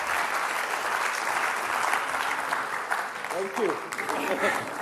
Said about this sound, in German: Und einen warmen Applaus.